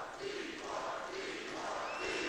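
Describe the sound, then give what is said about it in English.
A crowd chants "deport", faint and muffled, a dense wash of massed voices with only soft rhythmic swells and no clear individual words. “If you can't make it out, the crowd is chanting deport.”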